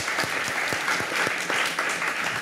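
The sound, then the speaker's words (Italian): An audience applauding at a literary event, with dense, even clapping held at a steady, fairly loud level from start to finish. “Un grande applauso anche a lei.”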